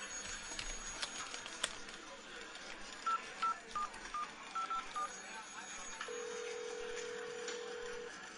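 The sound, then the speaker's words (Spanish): Telephone keypad tones as a number is dialed: a quick run of several short, evenly spaced beeps over faint background noise, then a single steady tone held for about two seconds. “Voy a ver si hago algunas llamadas y adelanto trabajo.”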